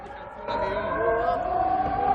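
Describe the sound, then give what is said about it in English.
Civil defense air raid siren in northern Israel near the Lebanese border, a sustained, wailing, harmonic tone that swells in after about half a second and then holds loud and steady. “In northern Israel, 6 miles from the Lebanese border, the siren has become the soundtrack.”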